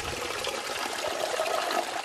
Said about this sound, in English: filling up several buckets of water and loading them into the back of her car